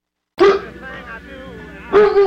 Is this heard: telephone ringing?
no